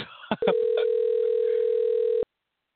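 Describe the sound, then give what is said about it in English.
A telephone being dialed: a few brief clicks and tones, then a steady electronic tone that cuts off abruptly into silence. “Okay, I'm going to dial.”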